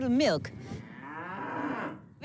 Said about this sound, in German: Wir haben einen Biohof und machen Rohmilchkäse. Von unseren Groninger Blakopkühen bekommen wir sowohl Fleisch als auch Milch.